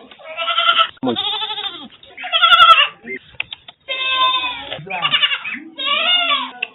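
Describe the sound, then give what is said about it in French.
Young goats bleat in an enclosure behind a house holding about twenty of them. Many loud, wavering, nasal bleats overlap and follow one another with brief gaps. “Derrière sa maison, Richard a construit un enclos qui abrite une 20aine de cabris.”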